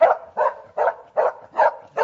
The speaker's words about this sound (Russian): Однажды он унюхал предметы старины в кармане у лейтенанта таможенной службы Зверева и поднял такой лай